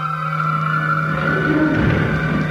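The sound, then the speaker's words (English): A car motor runs steadily at idle, a constant droning hum with even tonal overtones and no clear change in pitch or speed. “Cut the motor.”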